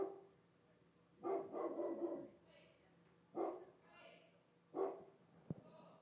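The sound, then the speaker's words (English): A dog barks outside in a few faint bursts, the first a longer run of barking, then two shorter barks separated by quiet pauses. “the dog barking outside”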